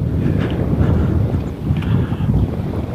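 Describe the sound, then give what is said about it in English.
Wind blowing through a cottonwood tree, a steady, rushing low rumble with gusty buffeting that swells and dips slightly over the three seconds; no voices. “I don't know if you can hear the wind in this cottonwood tree. Or through the air filter”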